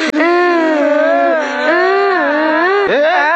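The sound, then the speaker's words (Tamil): Children crying in a sustained, high wailing sob that holds steadily for several seconds, wavering in pitch, dipping briefly and catching near the end. “ஏன்டா இப்ப அழுகுறீங்க?”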